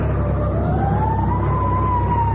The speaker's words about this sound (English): Fire engine?